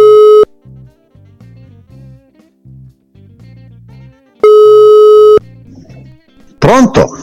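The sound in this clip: Telephone dial tone while a call is placed: two loud, steady electronic tones, one about half a second long and one about a second long, with low voices between them and a louder voice at the end.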